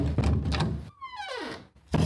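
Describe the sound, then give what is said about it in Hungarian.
A door opens into a restoration workshop with a dull thump and a drawn-out creak gliding downward in pitch. Another thump comes near the end. “Belépünk a restaurátor műhelynek az ajtaján.”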